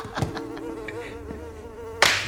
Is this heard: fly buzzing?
yes